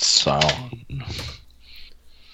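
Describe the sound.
Quick, light clicks of typing on a computer keyboard; a voice speaks over the first part, and fainter key taps follow on their own.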